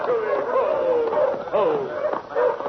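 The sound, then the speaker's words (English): Village dogs raising an alarm in an overlapping chorus of howls and yelps with wavering pitch. The sound is fairly loud and continuous throughout. “But the village dogs raised the alarm, and in a few short seconds, every brave in the village was clustered around the giant Palomino and his famous rider.”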